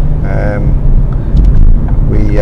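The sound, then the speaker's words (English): A low, steady rumble from inside a Ford Focus automatic car driving in the UK, the road and engine drone running beneath a voice that talks over it. “For anyone who's listening, I'm currently driving a Ford Focus automatic here in the UK.”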